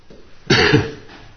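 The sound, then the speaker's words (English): A person coughs, one harsh, sudden burst that swells and then fades, loud against a faint low background hum. “But I think there's been quite a few people that have had these coughs these days.”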